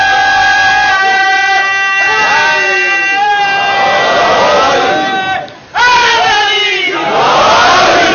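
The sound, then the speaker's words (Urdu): A crowd chanting a slogan in unison, loud sustained voices rising and falling together in repeated phrases, with a brief drop in sound before the chant resumes just as strongly. “یہ انہوں نے ایک نعرہ لگا ہے”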